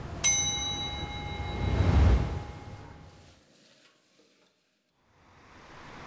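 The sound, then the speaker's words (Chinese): Pork kidney and beef aorta are stir-fried Hunan-style in a pan over a fierce flame in plenty of hot oil. A ringing metallic clang opens, then a swelling sizzle peaks and fades to near silence before a fresh hiss rises. “娇嫩的腰花与脆爽的黄喉在锅热油宽火旺下翻炒几十秒即可”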